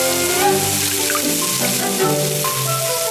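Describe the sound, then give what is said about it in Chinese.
Loud, continuous hissing sizzle of prepared spices fried one after another in hot oil in a wok to draw out their aroma, steady throughout with no break. “将准备好的香料依次倒入锅里，榨出香味”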